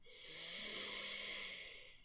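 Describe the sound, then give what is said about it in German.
A single slow, deep breath in, a soft airy hiss that swells and then eases off over about two seconds, faint and with no talk. “Atme tief ein.”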